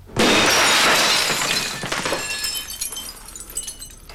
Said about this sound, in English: is smashing the glass of an office door in the hospital